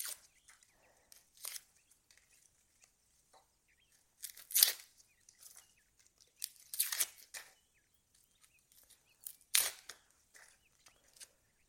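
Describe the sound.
Onion skin being peeled off by hand gives crisp, papery crackles and tearing sounds. Several short bursts come at irregular intervals with quiet gaps between them, and a few are louder and drawn out.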